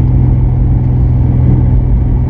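A powerful car engine of about 500 horsepower revs as the driver presses the clutch and changes gear, giving a loud, steady, droning rumble throughout with no voices.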